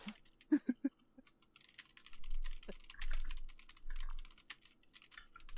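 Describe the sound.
Typing on a computer keyboard: many quick, light keystroke clicks in uneven bursts, with a faint low murmur under parts of the run.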